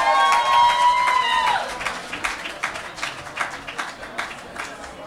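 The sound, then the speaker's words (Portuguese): An audience applauds a band at an alternative song festival. A sustained tonal sound fades out early on, then many dense, uneven claps continue and gradually soften. “Uma salva de palmas para os Los Planeta Fluffan.”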